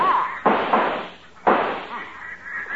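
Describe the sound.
Two loud shotgun blasts ring out during a duck hunt, about a second apart. Each has a sharp crack followed by a long, fading tail.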